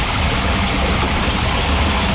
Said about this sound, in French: vaches de courant. Tu vois, dans celui-ci, en mettant le pied au fond, je n'arrive pas à me tenir debout.